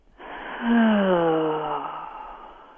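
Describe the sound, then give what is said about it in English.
A deep belly breath: a short airy inhale flows into a long, voiced, sighing exhale whose tone sags gently in pitch as it fades over about two seconds, with no talk. “taking just a deep breath in, if you breathe in, can you hear me? I'm breathing into my stomach and then exhaling”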